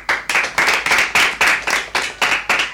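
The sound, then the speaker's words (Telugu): Rhythmic clapping from an audience after a story is told. The claps land in a steady, even beat, with many sharp bursts evenly spaced and no voices. “Tanusha చెప్పిన కథ చాలా బాగుంది కదా, చప్పట్లు.”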